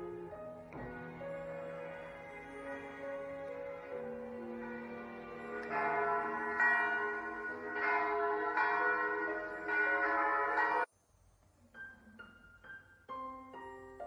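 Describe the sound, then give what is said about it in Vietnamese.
Church bells toll outside a church in the morning, with many overlapping strikes and long ringing tones that build to a loud, full peal. The peal cuts off abruptly, then a few quieter, sparser strikes follow. “tiếng chuông từng hồi vang lên trong không khí ảm đạm mà trầm buồn.”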